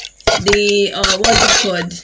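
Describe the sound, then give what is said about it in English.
Chicken, meat and pomo being stirred in a cooking pot, with a utensil scraping and clanking against the metal. Several sharp knocks and brief ringing tones come between the scrapes. “So yeah, we are going to stir it together like this. All right, so we are stirring.”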